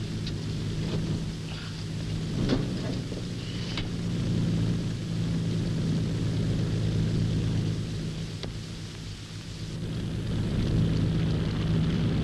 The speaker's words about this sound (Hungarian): És odafönt a budapesti repülőgép.